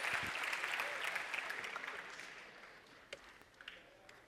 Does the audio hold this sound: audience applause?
yes